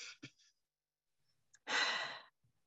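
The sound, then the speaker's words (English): A deep breath in through the nose and out through the mouth: a few brief, faint airy sounds, then a single strong, breathy exhale lasting about half a second. “I like to do a big breath in through my nose and out through my mouth.”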